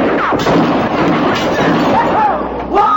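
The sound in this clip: Texas cowboys fire off guns, a few sharp booming shots cracking through a noisy commotion with voices talking over it.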